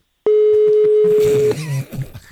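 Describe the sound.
Telephone tones as a radio show places a call: a steady tone holds for just over a second with a few short dial clicks under it, then gives way to a quieter jumble of brief tones.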